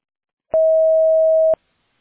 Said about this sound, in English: Record your message at the tone.